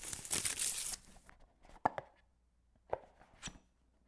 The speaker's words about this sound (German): Vorsichtig riss er das Geschenkpapier auf und nahm den Deckel ab.